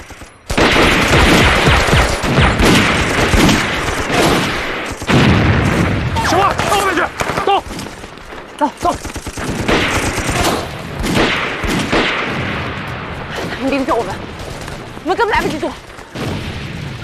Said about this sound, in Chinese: 至少有两个人盯着我们，我们一开枪，他们就开枪了。